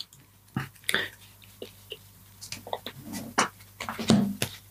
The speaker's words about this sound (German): Und ich esse mal noch ein paar Chips.